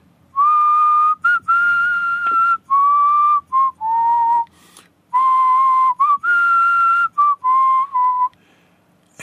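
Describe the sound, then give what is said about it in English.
A person whistles tunes somewhere deep inside a prison: clear, sustained tonal notes in short melodic phrases, with a brief pause midway between two runs of notes, heard alone. “I think I hear whistling from deep in the prison.”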